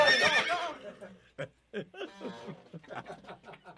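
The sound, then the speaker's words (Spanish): A voice imitates a mare's neighing with a short, high, shaky whinny, followed by chuckles and talk. “Así te grita la yegua cuando se la empujas.”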